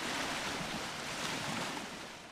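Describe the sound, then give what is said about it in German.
A fresh sea breeze and waves at the shore of the island of Møn make a quiet, even wash of airy noise. It runs steadily throughout without distinct breaking crashes. “Eine frische Brise am Meer”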